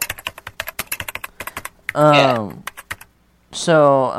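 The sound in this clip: Rapid typing on a computer keyboard, a quick run of sharp, uneven clicks, followed by people talking.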